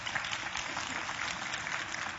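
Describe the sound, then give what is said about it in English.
Sparse, faint clapping from an audience during a sermon: a few scattered claps over a low, steady hiss of crowd noise. “now I do notice that the clapping's real sparse on this, but you're hearing it”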